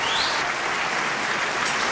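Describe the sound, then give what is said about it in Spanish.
Dense applause for a team of scriptwriters rolls continuously, a loud, steady hiss of many hands clapping at once with no gaps or separate claps standing out, lasting the whole stretch. “le damos un aplauso al equipo de guionistas para que estén... Sí, para que tengan buen ánimo.”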